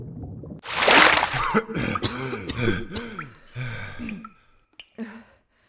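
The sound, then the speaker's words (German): A person surfaces from underwater into a small cave inside rock, having swum up through a tunnel. A loud burst of spluttering breath comes first, then several voiced gasps and heaving breaths that grow fainter and sparser. “Mit einem kräftigen Stoß schwamm ich nach oben und tauchte prustend auf.”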